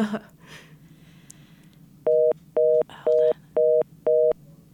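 A telephone line tone from an incoming caller's line: five short, evenly spaced mid-pitched electronic beeps over a faint low background hum.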